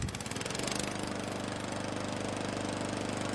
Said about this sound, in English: Mow, mow, mow your yard faster than before. Mow, mow, mow your hay better than before.